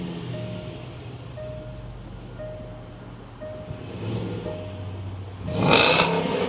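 A car engine starts with a key fob and then settles into a gurgling idle. A faint chime repeats at a steady pace over a low rumble, followed by a loud surge near the end as the engine fires.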